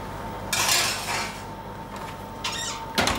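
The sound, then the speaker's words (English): Metal clatter of oiled baking tins being put into a very hot oven, a few brief clanks and scrapes of metal against metal over quiet background. “Now, put some oil in the baking tins. Now put the tins in a very hot oven.”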